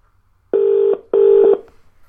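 A phone dials a call with two loud, steady electronic keypad tones, each lasting under half a second, separated by a brief gap and followed by quiet.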